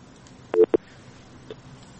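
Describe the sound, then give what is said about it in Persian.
A phone line cutting off during a radio call-in show: a quick cluster of short, sharp clicks over a steady faint line hiss, followed by one fainter blip a moment later, with no talk. “بله خب تماسشان قطع شد”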